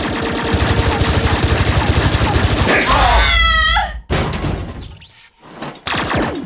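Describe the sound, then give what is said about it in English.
Rapid gunfire in a comedic robot-battle skit: a fast, stuttering volley of loud shots, followed by a brief higher sweep and a few heavy impacts. “She was shooting me!”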